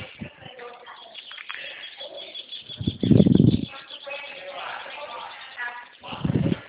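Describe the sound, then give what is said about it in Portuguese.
Birds singing near a house porch, heard over a phone line: thin, band-limited chirps run throughout, with a couple of louder, lower bursts. “Olha os passarinhos cantando.”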